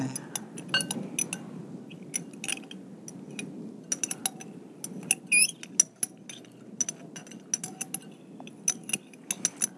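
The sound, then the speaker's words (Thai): A spoon stirs an SLS soap solution, producing many light clicks and taps against the container in an irregular rhythm, with occasional soft scraping. “ต้องค่อยๆคน ใช่ค่ะ ไม่งั้นจะเป็นฟองนะเพราะว่า SLS นี่มันเป็นตัวสารให้ฟองนะคะเป็นสารชะล้างนะคะเอาใช้ช้อนดีไหม”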